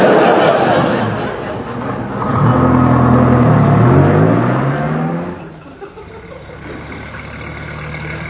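An old vehicle's engine being coaxed to start, running roughly as its revs climb and then drop back to an uneven idle.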